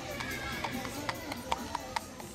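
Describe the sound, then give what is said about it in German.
Clattering of a two-wheeled horse-drawn cart on polished, rounded cobblestones in a steep colonial town street. Irregular sharp knocks repeat through a continuous background with voices present. “Auf dem Kopfsteinpflaster klappert ein zweirädriger Pferdewagen.”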